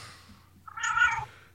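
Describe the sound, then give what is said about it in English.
A house cat meows once, a short mid-pitched call in the middle of an otherwise quiet stretch with only a faint low hum underneath. “where's the cat coming from? That would be me.”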